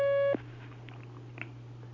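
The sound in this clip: A telephone line tone cuts off abruptly as a call connects on a phone-in line, leaving a steady low electrical hum with faint crackle behind it.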